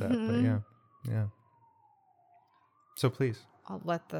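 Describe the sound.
A siren sound effect stands in for an alarm going off in someone's mind. A thin, steady wail sags slightly in pitch and then climbs back up, sounding alone for a couple of seconds between stretches of conversation.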